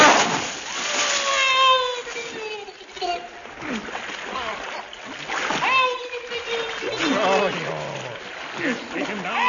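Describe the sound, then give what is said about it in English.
Splashing and sloshing liquid as someone is dunked in a bath of turpentine, several wet bursts mixed in with voices talking, in narrow-band, slightly muffled audio. “Quick, get him in this bath of turpentine.”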